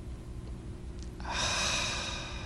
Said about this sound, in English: I sometimes just sit and breathe in and breathe out. In.